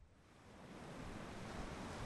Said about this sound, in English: Only a few feet away from the Uducton archaeological dig site, waves from a storm are crashing into the shore.